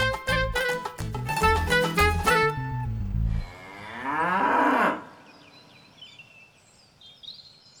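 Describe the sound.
A buffalo moos in two loud, low, harmonic calls. The first is long and pulsing, and the second is shorter and wavering. Quiet follows.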